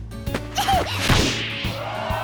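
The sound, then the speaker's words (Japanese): A ball is kicked during a kickball game, giving a sharp whack with a brief swishing follow-through, set against a steady tonal backdrop. “目を閉じて蹴った。それでもちゃんと前に飛んだ。”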